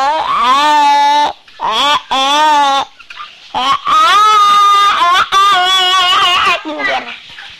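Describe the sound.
Chickens cluck and squawk in a run of loud, strained harmonic calls, each held for a moment with wavering pitch, separated by short pauses.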